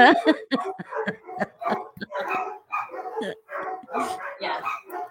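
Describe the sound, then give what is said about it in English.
Dogs bark at someone at the door of a home in many rapid, sharp, yappy bursts, fairly loud and close together. “Somebody's obviously at the door. sorry. Sometimes having dogs is worse than having kids.”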